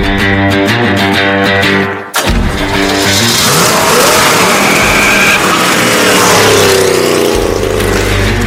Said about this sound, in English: Chris mentions the now president-elect is driving an old Corvette. I like to drive.